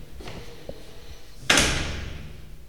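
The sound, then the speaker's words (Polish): A bathroom door opens with a sudden loud onset whose broad whoosh fades over about a second, after a small click earlier on. “Jestem przed łazienką, otwieram drzwi.”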